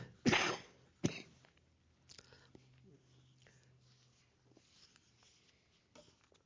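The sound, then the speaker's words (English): Two sharp, loud coughs from a person with a lingering cough come close together near the start, the first longer, followed by quieter throat and breathy sounds. “I appreciate you guys putting up with this cough because I need to talk through it.”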